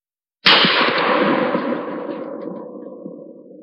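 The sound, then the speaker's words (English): A shotgun fires at night: one sudden, loud blast followed by a long, rumbling decay that fades over about three seconds. “Norma Jean awoke in the night to the sound of a shotgun firing.”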